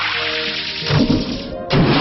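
Venom Shot, a poison attack used by the creature Ratzel, striking Foe Spruzel in a monster-battle video game: a hissing sweep followed by two loud thwacking impacts.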